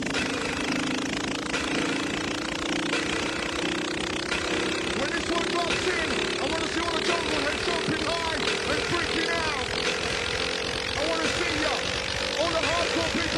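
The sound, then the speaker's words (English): Airplane taking off: a dense, loud engine roar with rattling noise and a steady drone that rises slowly in pitch, with voices mixed in. “We're now ready for takeoff, so please fasten your seatbelt. And we have liftoff!”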